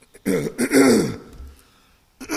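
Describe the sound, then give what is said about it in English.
Throat clearing into a lapel microphone, close and raspy: a few short scrapes, then one long, harsh clearing of the throat, and a brief sound after a pause. “Excuse me, sorry about that, and this lapel mic doesn't help, does it? As I clear my throat in your ear.”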